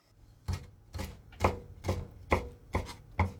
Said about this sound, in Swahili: Katakata kamba kwa urefu wa sentimita 1 kiukubwa na waweke chumvi kiasi na pilipili manga.